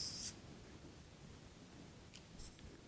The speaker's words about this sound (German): die schreibe ich einmal auf